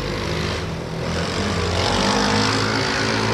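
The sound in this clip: Two quad bikes being revved hard give a loud, continuous engine roar with shifting low harmonics that holds steady throughout.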